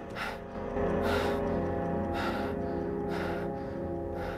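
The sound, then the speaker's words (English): A man breathes heavily after a tense confrontation: several loud, rasping breaths in a steady rhythm over a low, sustained musical drone. “His eyes refocus, and he breathes heavily.”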